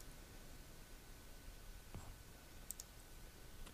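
A few faint clicks on a computer sound sparsely over a low, steady hiss, quiet and without voices.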